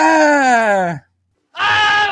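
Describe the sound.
A man's acted scream of pain, as if bitten by an alligator: a loud, long voiced cry falling in pitch, a short silence, then a second rougher, noisier scream.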